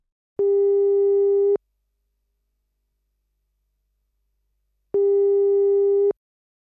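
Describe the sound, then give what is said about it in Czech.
Telephone ringback tone while a call is placed: two long, steady beeps at a single pitch, each lasting just over a second and separated by a long silence. “Takže já volám Vaškovi Šandovi.”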